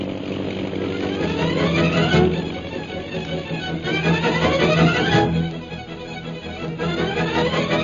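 An airplane engine circling over a jungle camp drones continuously and loudly, its throbbing tone wavering in pitch as it passes, with no voices.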